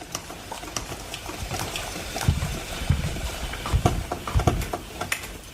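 Gurgling and bubbling from a coffee machine running water mixed with citric acid through its tank to descale it, with an uneven sputtering patter and a few louder pops over a steady watery hiss.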